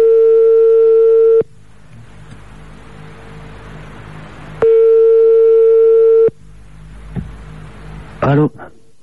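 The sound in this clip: Ringing tone of a telephone call being dialed: two long, steady, mid-pitched rings, each over a second, separated by a stretch of faint line hiss, followed by a short burst of sound near the end.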